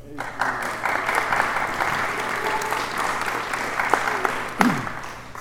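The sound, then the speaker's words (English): An audience applauds to welcome a panel at an evening meeting. The clapping is steady and moderately loud, a continuous patter that lasts the whole clip. “Please welcome our panel this evening.”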